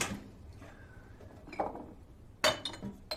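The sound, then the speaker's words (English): Glass jars clink as they are taken down from a shelf: a few sharp, bright knocks of glass on glass, loudest near the end, after quieter handling noises. “takes down some glass jars”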